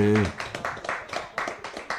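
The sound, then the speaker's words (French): An audience claps along in a steady rhythm of many sharp, bright claps at a concert. A brief voice is heard at the very start. “On peut les applaudir quand même, hein.”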